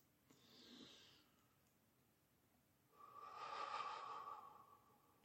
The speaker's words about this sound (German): beim gleichen Einatmen hoch in meinen Brustkorb und dann wieder ganz tief und vollständig ausatmen.